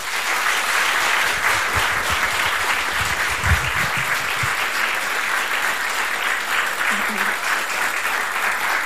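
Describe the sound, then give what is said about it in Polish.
Sustained audience applause at a gold record presentation event, honouring charity foundation workers: dense, steady clapping that stays loud and even for the whole stretch without easing off. “działacze Fundacji Nasze Dzieci i myślę, że największe, naprawdę gigantyczne, ogromne brawa im za ich codzienną pracę na rzecz dzieci się należą. Wielkie brawa.”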